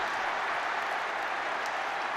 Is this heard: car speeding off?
no